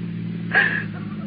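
Idling car engine as a car pulls in for gas with its motor left running, a steady low hum that swells briefly in the middle before settling back to an even drone.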